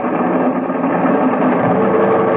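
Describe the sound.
Piston aircraft engines run wide open at maximum manifold pressure for a heavy takeoff, a steady, dense droning hum with a low vibrating undertone that stays even throughout, with no speech over it.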